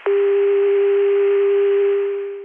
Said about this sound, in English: This is 288. This is the CCSA dial tone.